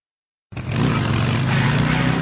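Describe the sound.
World of Outlaws sprint car engines roar in a race, cutting in abruptly after a short silence and holding a loud, steady, buzzing drone.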